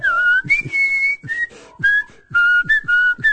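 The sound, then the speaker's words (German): A person whistles a song melody in clear, pure notes, moving between pitches in short phrases with brief gaps, with no talk. “Den könnte man auch pfeifen, oder?”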